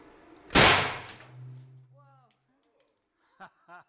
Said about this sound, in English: Hey, these should be some streamers shooting at you. Let's see what happens.